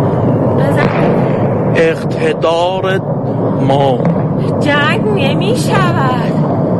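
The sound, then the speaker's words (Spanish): Explosions from a night bombing over Tehran sound as several heavy bursts and booms, mixed with loud voices of people speaking throughout. “Esto ha sido la madrugada en esa ciudad. Desde allí nos cuentan que ha sido el peor bombardeo desde el inicio de la campaña.”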